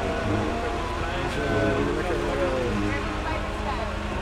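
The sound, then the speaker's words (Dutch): An old Volvo diesel tractor engine runs with a steady, thick rumble and a dense, even drone that holds throughout. “Ouderwetse stinkdiesel. Lekkere oude Volvo trekker.”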